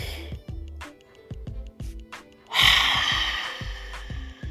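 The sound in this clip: A deep breath drawn in through the nose during a stress-relief breathing exercise: one long, loud, breathy inhale rising from quiet, accompanied throughout by soft, low rhythmic thumps.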